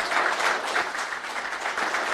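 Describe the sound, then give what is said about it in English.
Applause from a lecture audience for their president, dense and steady clapping from many hands that holds at an even level throughout. “Well, we're putting our hands together for our president.”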